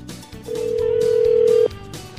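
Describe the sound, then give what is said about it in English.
A single steady ringback tone sounds on a telephone call to a marine business. It is mid-pitched and lasts about one second over faint background noise. “Let's dial him up here.”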